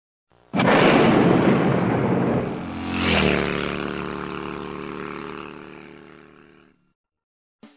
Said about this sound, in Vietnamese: Sài Gòn lại rung động vì những tiếng nổ mới.